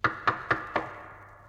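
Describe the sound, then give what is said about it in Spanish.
Knocking on a wooden door: four sharp knocks, the first three evenly spaced and the fourth slightly delayed, each ringing out briefly. The last one trails into a fading resonance, with no voices. “Y el lobo maligno golpea la puerta.”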